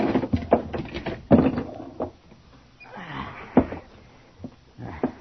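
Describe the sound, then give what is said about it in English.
A cabin hatch is opened with a few uneven knocks, clunks and scraping sounds of wood or metal, with short quiet gaps between them. “open the hatch to the cabin.”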